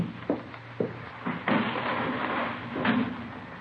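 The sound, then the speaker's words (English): A window is opened with a few wooden knocks and bumps, then a sustained scraping slide. “Let me open a window for you, sir. A little fresh air in here.”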